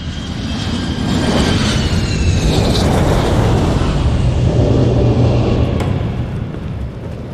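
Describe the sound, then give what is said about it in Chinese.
An airliner lands at Paris Charles de Gaulle airport with a loud, steady engine roar and a faint whine. The noise holds for several seconds, then eases slightly at the end. “女士们、先生们，本次航班即将在巴黎戴高乐机场降落，请您回到自己的座位并系好安全带。”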